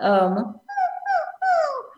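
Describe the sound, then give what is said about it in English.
A voice imitates a puppy dog whimper as a vocal exercise: a low voiced hum, then three high, gliding whine-like calls that rise and fall in pitch, fairly loud. “You can do light sirens, like, you can do the puppy dog or kitty cat”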